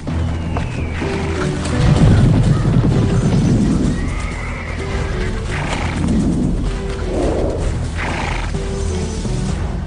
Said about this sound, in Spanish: Y vi aparecer un caballo blanco. Su jinete tenía un arco